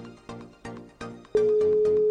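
Telephone tones on an unanswered call placed to a reporter at a football match: a few evenly spaced pulsing tones about a third of a second apart, then a steady continuous tone that holds to the end.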